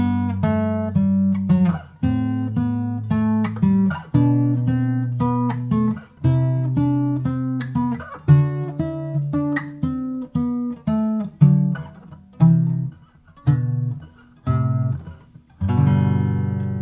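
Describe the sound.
Pairs of notes ten major-scale steps apart, held together, move step by step through a major scale. Many sustained two-note chords sound alone in a steady stepwise rhythm, with short gaps between some of them.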